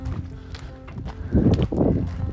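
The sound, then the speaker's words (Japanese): Horses in a pasture beside a farm path on a high-altitude ranch, with hooves clip-clopping in an uneven, continuous rhythm and some heavier thuds and snorting noise growing louder toward the end. “牧場の脇道をね歩いてます前はね馬が前で横か横の牧草地で馬がいっぱいいますわ”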